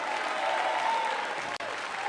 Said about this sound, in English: If you receive that tonight, take 15 seconds, clap your hands, all ye people, and shout unto God with the voice of triumph.